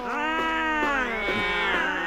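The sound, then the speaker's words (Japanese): Drawn-out cat meow from a cat in a shopping-street scene, one wavering harmonic cry lasting about two seconds with a few pitch inflections and no pause. “猫ですか。”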